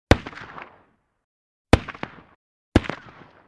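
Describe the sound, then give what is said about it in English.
Gunshots fired by guards disguised as road workers, ambushing riders on a road: three sharp, loud bangs spaced apart, each followed by a short decaying rumble and silence. “Suddenly, the Cardinal's guards shoot at D'Artagnan, Athos and Aramis.”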